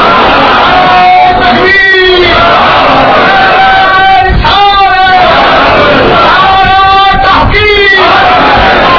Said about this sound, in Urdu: اس طرح کے نعرے سے میری طبیعت ٹوٹ جاتی ہے. مجھے نعرہ تو صحیح لگاؤ کرنا